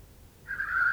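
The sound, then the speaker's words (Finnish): A black grouse cock blowing at a lek: one hoarse, wheezy, breathy note swells in partway through and is held steadily to the end. It is fairly faint over a low rumble, with no talk. “Nyt ne puhaltavat. Kujertelu alkaa hieman hapuillen. Useampia teerikukkoja ilmestyy soidin paikalle.”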